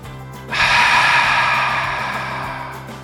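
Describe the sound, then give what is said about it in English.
A big, loud inhale through the nose during a breathing exercise begins abruptly and holds as a steady airy rush, slowly tapering over about two and a half seconds with no talk over it. “So big inhale through your nose.”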